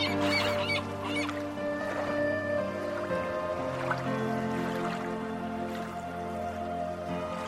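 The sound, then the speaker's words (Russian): Gulls cry in the distance, a few honking calls over a steady, sustained wash, set on a sandy shore where waves roll gently in. “И на расстоянии вы можете услышать чаек, которые игриво летают.”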